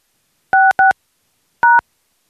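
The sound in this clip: Telephone keypad tones entering a password into an automated voice messaging system: three short, loud beeps, the first two in quick succession, then a pause before the third.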